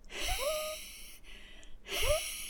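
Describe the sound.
A voice imitates the wheezing breath of asthma: raspy, hissing airflow with a thin whistling tone that swells twice, once near the start and again near the end, with no words spoken.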